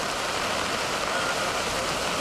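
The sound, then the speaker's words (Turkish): Heavy rain pours down in a downpour flooding the streets of Adana, a steady, dense, even hiss that holds at constant loudness throughout with no pauses or voices. “Adana'da etkili olan sağanak öğle saatlerinde şiddetini arttırdı. Özellikle Seyhan ve Yüreğir ilçelerinde kanalizasyonlar taştı. Göle dönen sokaklarda yayalar yürümekte, araçlar ilerlemekte güçlük çekti.”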